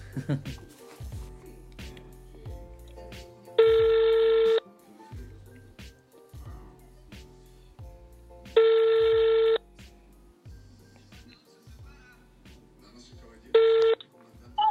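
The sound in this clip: An outgoing telephone call rings with a steady ringback tone: two long, even bursts about five seconds apart, then a third cut short, over a low, rhythmic background.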